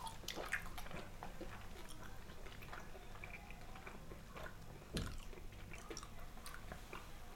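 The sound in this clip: Faint chewing of a bite of salted chuck beef with melted-in fat: soft, wet, squishy mouth sounds and small clicks repeating over a low background noise, with no talk.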